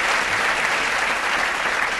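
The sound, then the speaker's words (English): An audience gives a burst of applause on a news quiz show. The clapping is thick and steady, holding a constant loudness throughout with no speech over it. “Big applause for the underwear bomber.”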